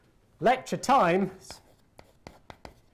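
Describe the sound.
Writing on a board during a lecture: a few sharp, dry taps and scratches follow a short burst of speech, spaced irregularly and fairly faint.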